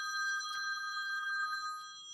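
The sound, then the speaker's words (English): A mobile phone rings with a steady electronic tone that carries bright layered harmonics and holds for about two seconds. It is heard alone, without voices. “Now I'm getting phone calls. I should have known. I should have had that on silent, but we don't edit the show here.”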